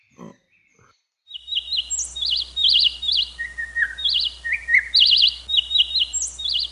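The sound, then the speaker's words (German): Birds chirp on a mountain among rocky cliff faces, with many rapid, high-pitched tweets and short trills in quick overlapping bursts that carry on steadily over a faint low hum after a brief quiet start. “Ach, schau halt noch die Vögel, die zwitschern.”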